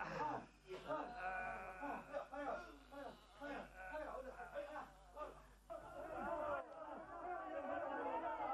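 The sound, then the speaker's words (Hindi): A crowd chants slogans at a site where workers are pushing a generator: many voices shout together in loud, rhythmic bursts that rise and fall across the whole stretch. “अरे अब ये नारे क्यों लगने लगे साहब? लगता है चीफ साहब आ गए।”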